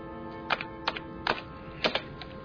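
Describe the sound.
Computer mouse clicks and keyboard typing come as a few sharp, irregularly spaced clicks, faint against a steady background tone.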